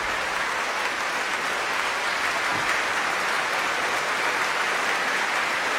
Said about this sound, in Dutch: Bravo geroep hier. Voor het prachtige trio.